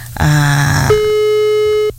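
A telephone line tone follows a dropped call: a short, blurred burst, then a single steady, mid-pitched tone held for about a second before it cuts off.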